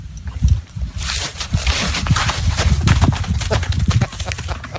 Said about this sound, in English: That's an actual horse. Is that a Foley artist?